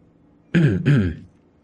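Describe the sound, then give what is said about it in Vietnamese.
A voice performs embarrassed throat clearing in a narrated story: two short, gruff bursts in quick succession against near silence. “bối rối hắng giọng rồi rút tay trở về”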